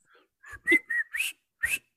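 A person whistles a tune: several bright, clear notes in separate short bursts with brief gaps between them. The whistling is fairly steady and stands alone, with no talking.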